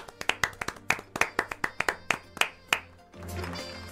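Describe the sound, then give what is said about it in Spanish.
Hands clap to welcome a guest doctor on a talk show: many sharp, evenly spaced claps at a brisk rhythm, then the clapping stops and a steady hiss continues alone. “La aplaudimos.”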